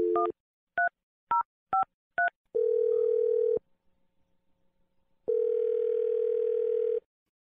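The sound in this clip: A telephone is dialed: five short, clipped touch-tone beeps in quick succession, then a steady, loud dial tone that cuts out, goes quiet and returns for another long, even hum.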